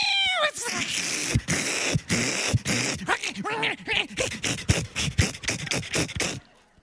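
A feral cat caught in a live trap in a barn yowls and caterwauls in a long string of harsh, wavering cries. The loud wailing rises and falls, then stops abruptly at the end.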